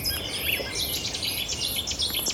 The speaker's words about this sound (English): Oh, and there's a Setti's warbler. I always call them Chetty's warbler, but it's a Setti's warbler, really sharp.